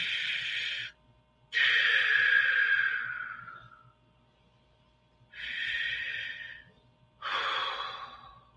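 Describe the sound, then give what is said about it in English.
Deep breaths from a group in a guided breathing exercise, drawn in through the nose and let out through the mouth: two slow in-and-out cycles, each a loud, airy rush, separated by short pauses, with no talking. “I want everyone to take a deep breath in through your nose, out through your mouth. If your sinuses are stopped up, you can breathe in and out through your mouth. It's fine. Just the point is, let's take some deep breaths three times.”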